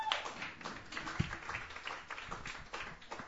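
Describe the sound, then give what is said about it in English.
Quiet, scattered clapping from an open mic audience welcoming a performer to the stage, forming a soft steady patter with a couple of sharper, louder claps standing out near the middle and the end. “Please put your hands together. Welcome Sheward to the stage.”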